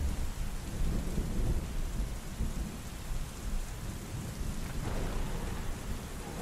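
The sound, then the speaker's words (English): A thunderstorm with steady, heavy rain hissing on surfaces under deep, rolling rumbles of thunder. The roar is continuous and fairly quiet overall, with no voices. “punished by the raging storm, thunder booming all around you,”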